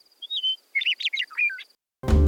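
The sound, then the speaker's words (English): A meadowlark sings a clear, sustained whistled note, then a rapid jumble of bright, slurred, warbling phrases after a short pause. A sudden loud, harsh sound abruptly cuts in at the end. “Meadowlark continues to sing there today.”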